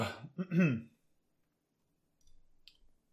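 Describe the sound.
A short, voiced throat clearing from someone with caviar stuck in the throat comes first, followed after a pause by a few faint, soft clicks.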